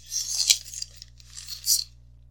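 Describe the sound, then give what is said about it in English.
A newspaper page is turned inside the paper, giving two brief, crisp papery swishes over a low, steady hum. “And now turn inside the paper to the Iowa Today page.”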